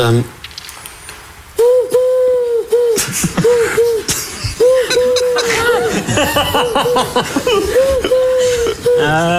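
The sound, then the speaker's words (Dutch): A human voice imitates a parrot copying a dove's call, giving many repeated hollow, mid-pitched coos in short runs, while chuckles and laughter continue throughout. “Dat is een papegaai die een duif nadoet.”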